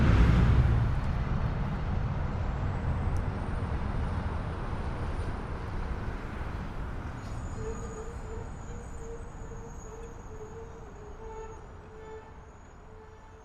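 Street traffic on the outskirts of Skid Row, about a block away: a steady low rumble of passing vehicles that slowly thins out, with a faint tonal hum joining midway.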